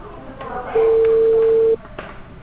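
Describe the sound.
A single steady ringback tone of a telephone call waiting to be answered, a mid-pitched beep lasting about a second and standing out above faint background noise.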